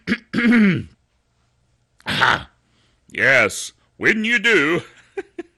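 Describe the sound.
Throat clearing, a few rough, raspy guttural bursts from one person, separated by short pauses, with some vocal grunting mixed in.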